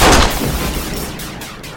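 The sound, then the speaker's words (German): A single gunshot goes off, a loud, sharp blast at the very start that decays into a long, rumbling tail and fades steadily to the end. “Es tut mir leid. Ich musste schießen.”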